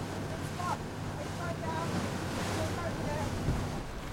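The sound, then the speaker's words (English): Steady wash of ocean waves and wind around a boat moving onward through deep water outside a reef, a constant rushing noise with no clear breaks. “The boat moves onward. The whales sing outside the reef, but the deeper waters can get so big that if you're not careful, it could sink the boat.”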